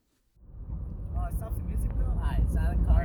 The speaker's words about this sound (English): The drive. Welcome to the noises of driving to Hamilton.